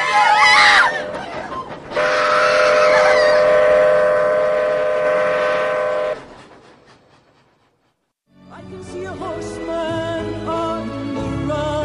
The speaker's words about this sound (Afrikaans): Ons spring voor daai geel en blou trein in.